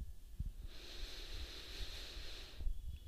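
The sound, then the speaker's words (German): A deep inhale during a guided breathing exercise: one long, steady, airy hiss lasting about two seconds, framed by brief quiet at either end, with no talk. “Mach doch mal die Augen zu. Atme tief ein.”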